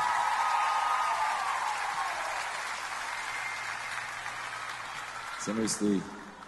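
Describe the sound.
An audience applauds a performer at a show, a broad wash of clapping that slowly fades, with a voice over it and a short tonal burst near the end.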